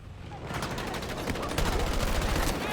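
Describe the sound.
Gunfire from a shooter video game: dense, continuous rapid shots that form a loud, steady barrage with no clear breaks between them.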